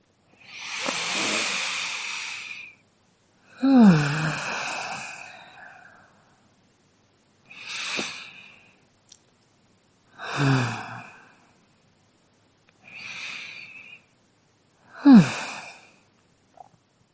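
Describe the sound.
Three slow, deep breaths taken during a guided relaxation exercise about joy. Each has a long airy inhale and a heavier, sighing exhale, giving six breathy bursts separated by silence, with no talking.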